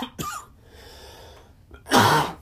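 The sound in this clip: Coughing from a tickle in the throat: a short sharp cough, a pause, then a longer, louder and harsher cough burst near the end.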